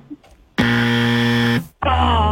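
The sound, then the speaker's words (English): Game show buzzer sounding a loud, harsh, sustained blast of about a second. A brighter tone follows after a brief gap. “Oh, the buzzer's back.”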